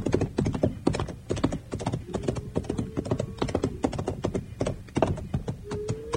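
A mustang horse trotting, its hooves striking in a quick, steady clip-clop of many hoofbeats that runs throughout at a moderate level.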